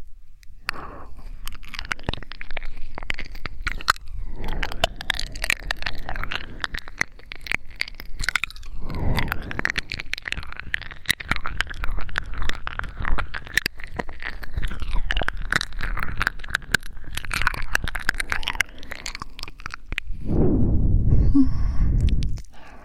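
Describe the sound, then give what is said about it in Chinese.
Close, wet ear-eating mouth sounds for ASMR: continuous smacking, clicking and licking with soft breaths, ending in a louder exhaled sigh. “要先这只耳朵先开始吃呢？当然是因为这只耳朵更加诱人了。”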